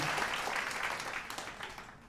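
Audience clapping in a short, dense burst of hand claps that holds briefly and then tapers off.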